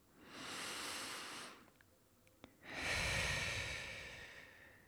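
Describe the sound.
Deep breathing during a guided breathing exercise: two long, airy breaths separated by a brief pause. The second breath is louder and fuller than the first.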